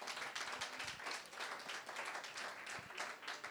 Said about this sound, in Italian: Io vi chiedo naturalmente un bel applauso per questi vini, perché sono davvero molto molto buoni.